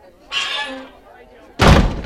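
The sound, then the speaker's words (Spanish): A door slams shut with one loud, heavy thud that cuts in sharply after a raised voice and then dies away quickly. “¡Esa puerta!”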